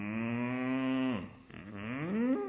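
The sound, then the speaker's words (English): A cow waiting to be milked gives a long, drawn-out low moo. Its pitch holds steady, dips in the middle, then climbs again toward the end, with no talk over it. “you hear it. Right? What is it? Time to milk the cows. You don't go down there, they don't let you forget it. They're uncomfortable.”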